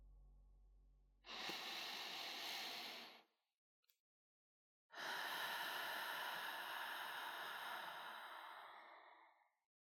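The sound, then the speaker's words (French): A deep inhalation taken during a hypnosis session: a long, airy breath of a couple of seconds, then after a short pause a second, longer and steadier airy breath. “Et vous allez pouvoir maintenant prendre une grande inspiration.”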